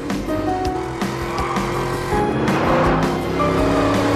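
A car engine roars steadily as the vehicle tears through neighborhood lawns and gardens during a chase, making a dense, sustained rumble that swells slightly toward the end with no pauses.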